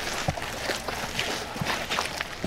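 Footsteps walk along a forest path, a few soft, irregular steps that are barely set apart from a steady, noisy background.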